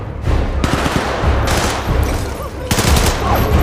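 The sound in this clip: Gunfire erupts during a security breach at a biohazard facility: rapid automatic bursts of sharp, loud shots in a few dense volleys, with crackling impacts between them.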